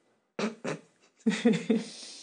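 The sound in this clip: Cats squabbling over a stash bag, a few short rough, growling cries: two brief bursts, a pause, then a tighter cluster trailing off.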